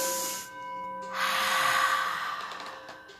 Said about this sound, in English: Close your eyes and take a deep breath. Inhale and exhale.